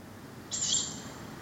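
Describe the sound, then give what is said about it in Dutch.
A young tawny owl gives a single hoarse, hissing screech, high and rasping, lasting about half a second over faint background noise. “Het is een jonge bosuil. Dat woe, woe, woe, woe, woe, dat doen ze nog niet.”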